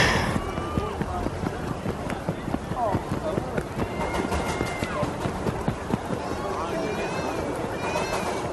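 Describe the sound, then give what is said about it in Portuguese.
Children run past shouting while people wait for a train at a station. Many hurried footsteps mix with high, excited voices that rise and fall, fairly faint, over about eight seconds. “agora crianças passando, correndo, gritando”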